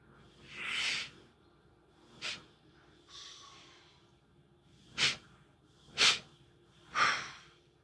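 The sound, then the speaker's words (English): Deep breathing in a breathing exercise: a series of airy, hissing inhales and exhales, mostly through the nose, separated by short quiet pauses. “We are taking much needed breaths, transformative breaths.”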